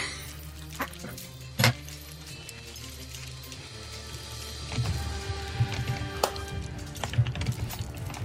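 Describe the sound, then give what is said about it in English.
Faint, irregular clicks of typing on a keyboard, with a few sharper keystrokes standing out against a steady low background hum. “Oh no, there's typing.”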